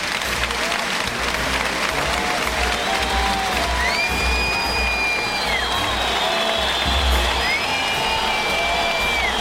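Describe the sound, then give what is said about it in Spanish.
A bullring crowd gives a loud, sustained ovation to the bullfighter El Juli. Continuous heavy applause and cheering run throughout, with several rising-and-falling whistles over the clapping. “Ahí sale el Juli. Y la ovación para Julián López Escobar, el Juli, que saluda a la altura de la segunda raya de Picard”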